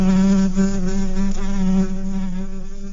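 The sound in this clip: Bees buzzing in a steady, continuous drone, a loud low hum with rich harmonics that wavers slightly in pitch throughout, with no other sounds over it.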